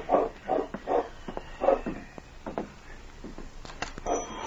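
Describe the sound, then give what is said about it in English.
Dog barking at night: a run of short, fairly faint barks in an uneven rhythm, with a few soft clicks and knocks between them. “He was sure he had heard a dog bark.”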